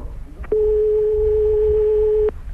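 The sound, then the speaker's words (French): Telephone line ringing on a call to the police, a single steady electronic tone held for nearly two seconds, loud and alone, starting and stopping abruptly over faint background hum. “Pourquoi vous ne décrochez pas? Écoutez, vous entendez sonner, là!”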